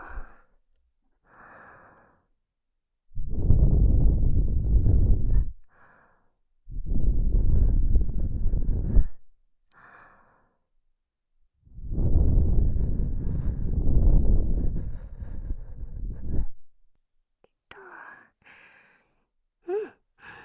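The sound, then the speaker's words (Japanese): Breath blown onto the microphone: three long, soft whooshing puffs separated by silences, the last lasting longest, with faint brief sounds before and after. “はい、息を吹きかけるよ。”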